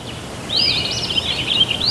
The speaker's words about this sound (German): Würdest du sagen, Vogelgezwitscher ist was Schönes?